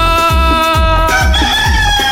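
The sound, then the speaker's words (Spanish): A rooster crowing, one loud, sustained call with a bright, harmonic tone that holds and shifts in pitch partway through. “Carritos, canta gallito, canta.”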